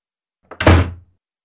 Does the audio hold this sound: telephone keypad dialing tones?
no